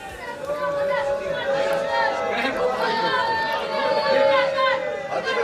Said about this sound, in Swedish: Ja, det ni hör där är från en stor protestaktion som började i centrala Jerusalem för en liten stund sedan.